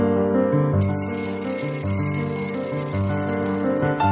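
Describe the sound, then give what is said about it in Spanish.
Alarm clock ringing at 6:30 in the morning, a bright, continuous metallic ringing that holds steady and loud for about four seconds with no talk over it. “Suena el despertador. Son las 6:30 de la mañana.”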